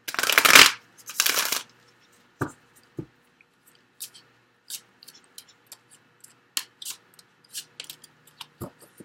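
Cards from the Sensual Wicca Tarot deck being shuffled, with two loud riffling bursts at the start, followed by many small, sparse taps and ticks as a card is drawn and handled.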